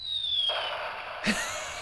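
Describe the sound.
A toy sound effects machine plays an electronic explosion effect: a thin, falling whistle tone, then two fizzy bursts, the second one brighter. The whole effect stays fairly faint.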